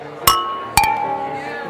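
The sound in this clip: Glasses clink together in a birthday toast, with two distinct bright clinks about half a second apart. Each strike leaves a high, ringing glass tone that lingers and slowly decays.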